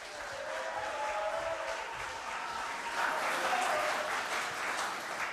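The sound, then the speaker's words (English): Applause from an audience, a dense and continuous clapping that holds steady for about five seconds and swells slightly in the second half. “Ho mai te pakipaki kia Selena Kipa.”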